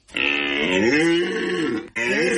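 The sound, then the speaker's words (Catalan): A red deer stag bellows during the autumn rut in the Pyrenees: one long, loud, deep harmonic roar held for nearly two seconds, then a brief break before a second call begins. “La brama del cèrvol.”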